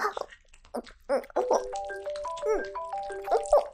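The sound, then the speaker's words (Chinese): A telephone rings with a melodic electronic tone, a run of steady beeping notes stepping up and down in pitch, mixed with a voice. “电话铃声响了，”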